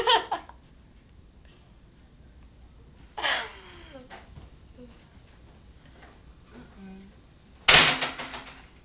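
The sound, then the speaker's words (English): A door slams shut with a sharp, loud bang near the end, after softer thumps and knocks earlier on. “She's being horrible. She slammed the door.”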